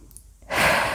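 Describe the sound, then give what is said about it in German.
A deep breath is drawn in during a guided relaxation exercise. After a near-quiet moment it becomes a long, airy, fairly loud inhale that continues to the end. “Dann atme tief ein”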